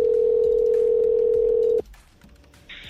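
Steady telephone dial tone as a call is placed, a loud, continuous mid-pitched hum that holds for nearly two seconds, then cuts off abruptly to faint line hiss and a brief higher tone.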